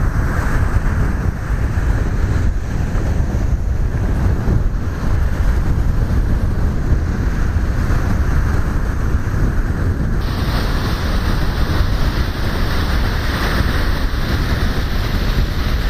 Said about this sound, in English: The wind? Oh, more than likely.